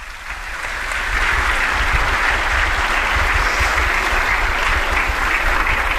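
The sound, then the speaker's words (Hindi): Loud applause from an audience at an official event as the Prime Minister is welcomed on stage with flowers. It swells during the first second, then holds as a dense, steady roar of clapping. “एक बार जोरदार तालियां.”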